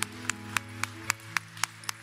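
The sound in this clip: Rhythmic audience clapping welcoming first-time visitors: eight sharp, evenly spaced claps in steady unison over a continuous low humming tone.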